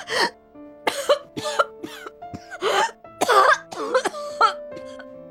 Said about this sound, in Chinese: 陈淑兰就剧烈的咳嗽，几乎要将肺咳出来